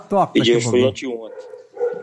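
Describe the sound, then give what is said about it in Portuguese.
Dogs bark and yelp with short, high, voice-like cries mixed in among people talking. “Olha o cachorro aí. Olha os cachorros. Olha os cachorros gritando aí.”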